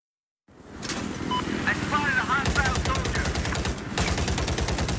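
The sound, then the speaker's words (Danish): Machine-gun fire from a war video game: a fast, rattling stream of shots that runs almost nonstop, with a brief break near the end. Shouting voices are faintly mixed in. “Ja, det her, det er lyden fra et krigscomputerspil Battlefield 4, hvor man skal vinde slag og slagte sine modstandere.”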